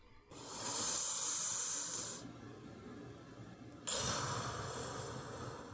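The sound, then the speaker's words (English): Deep, slow human breathing: one long, airy, hissing inhale, a quiet pause, then a long, softer exhale, faint and alone. “He inhales and exhales deeply, slowly.”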